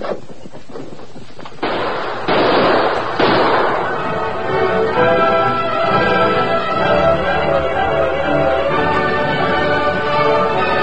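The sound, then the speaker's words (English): A few muffled gunshots from a western shootout among rocks burst out in the first few seconds, then give way to a steady, dense backdrop of sound that continues to the end. “Keep up that gunfire.”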